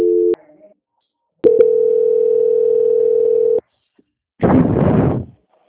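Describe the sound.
Telephone line tones while a call is being transferred: a short steady tone, a click, then a long unbroken tone of about two seconds. A loud, rough burst of noise follows after a brief gap.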